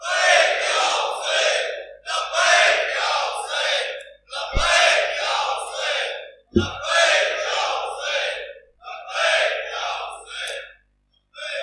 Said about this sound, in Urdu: اب جو جو لوگ میرے ساتھ ہیں، میں نعرہ لگواؤں گا، نعرے کا جواب دینا ہے، لبیک یا حسین